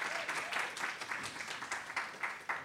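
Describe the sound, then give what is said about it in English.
Audience applause at a Freedom Archives event: a brief, fairly quiet patter of many hand claps lasting a couple of seconds. “Give it up for the Freedom Archives.”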